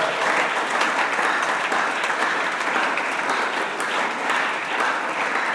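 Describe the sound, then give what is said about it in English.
Church audience clapping at a Sunday service: dense, steady applause from many hands that holds at an even loudness throughout, without a break. “This clapping is to celebrate Jesus.”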